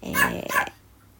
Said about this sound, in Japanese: すいません、ワンちゃんが吠えちゃってごめんなさい。